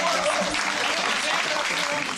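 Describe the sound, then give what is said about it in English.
Applause for a CrossFit gym founder from Napa: steady, dense clapping that stays loud and even for the whole stretch, with a voice under it. “we'll give some applause to Beth.”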